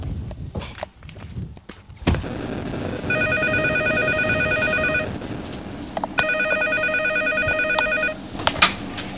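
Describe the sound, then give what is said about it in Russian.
A telephone rings in a police duty room, sounding two long bursts of a bright, warbling electronic tone separated by a short pause, with a few dull knocks and thuds before the first ring. “Сейчас дежурному поступил звонок, и, скорее всего, наряд ППС отправится отрабатывать это сообщение.”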